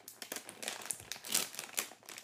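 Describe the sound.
Crinkling plastic as a bag of fiery habanero bar mix of peanuts, corn sticks and grain is torn open, in a quick series of soft rustling bursts with no talk.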